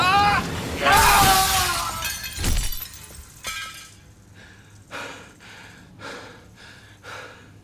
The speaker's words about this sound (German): Parker krallte sich an Nicks Kehle fest. Nick bekam keine Luft, er trat mit den Füßen. Aber Parker riss ihn hoch und stieß ihn durchs Fenster.